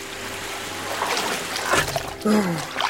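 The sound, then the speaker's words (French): Splashing water as Tintin swims to the Arabian coast, irregular sloshing splashes over a low steady hum, growing into louder bursts toward the end. “Ayant réussi à échapper aux deux agents, Tintin a regagné la côte arabique à la nage.”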